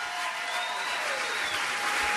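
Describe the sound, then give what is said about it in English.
Audience applause at a party held in honor of a family matriarch, a dense, steady wash of clapping hands that stays loud and even throughout, with no talk over it. “We have her picture right up here. Round of applause for Peg.”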